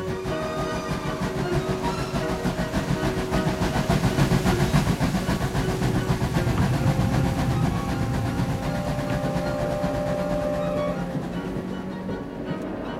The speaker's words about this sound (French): Le convoi officiel quitte la gare de Lyon dans la soirée.